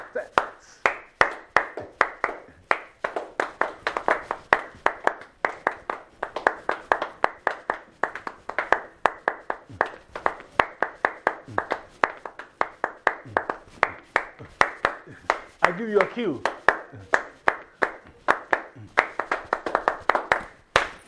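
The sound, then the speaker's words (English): Many hands clap together in a steady, even beat as a group keeps time to a Ghanaian drumming rhythm from West Africa. The sharp claps carry on through the whole stretch. “Hey, please join us. Clap your hands.”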